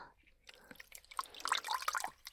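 Faint water drips and light splashes while something is being washed by hand. Many small irregular drips and trickles, growing busier toward the end, with soft breathy sounds in between.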